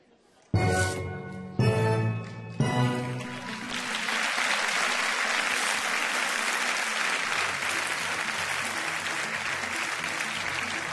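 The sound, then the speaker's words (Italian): Theme tune of the satirical news show Il Mentana che vorrei: three loud, sustained chords, each cut off abruptly, then a swell of steady, continuous audience applause that carries on to the end. “Ecco, manca solo la sigla del Mentana che vorrei.”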